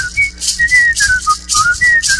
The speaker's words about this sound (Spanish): para silbar 4 horas sin descansar, porque yo demoro 6.